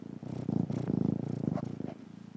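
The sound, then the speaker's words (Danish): A domestic cat purrs while perched on a person's shoulder: a soft, steady, low rumbling purr with a regular pulsing rhythm, heard alone and continuing throughout. “Nu er katten kravlet op på min skulder. Jeg ved ikke, om du kan høre ham spinde.”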